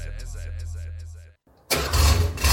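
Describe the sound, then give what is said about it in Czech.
A classic car engine starts at a vintage and youngtimer car meet. A low, steady rumble fades, a brief gap of near silence follows, then a loud, rough roar bursts in and holds. “Tohle je zvuk, který nestárne. Nablízkané karoserie, vůně benzínu a automobilové legendy. Klasika na čtyřech kolech, sraz veteránů a youngtimerů v Karolině.”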